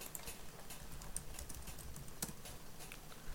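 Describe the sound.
Typing on a computer keyboard, entering an image search query. Quiet, quick, irregular keystroke clicks continue throughout with no speech.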